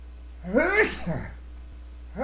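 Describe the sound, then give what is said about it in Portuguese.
A single sneeze: a voiced, rising intake builds into one sharp, loud burst of breath, then trails off quickly. Another voiced sound starts just at the end. “Eu sempre espirro em três.”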